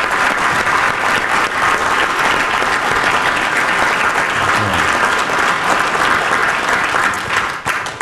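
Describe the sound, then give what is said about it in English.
An audience applauds after speakers are introduced at a panel event. The clapping is loud, dense and sustained, with no break, and eases off slightly in the final moment. “Can we give it up for Robert Lewis, Brandon Edwards, one time?”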